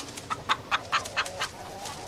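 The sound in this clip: Clucking from backyard-raised chickens: a series of short, bright clucks at a fairly steady rhythm, about six, alone with no voices.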